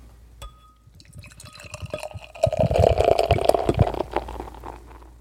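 A 500 ml can of drink poured into a glass: a soft trickle at first, then a louder fizzing, gurgling stream in the middle that tapers off toward the end, with no voices.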